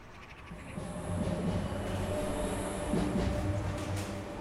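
A tram passes on a tram line between apartment blocks in a housing estate in Villetaneuse. A steady rolling rumble builds and holds, with faint metallic wheel squeal over it and no voices.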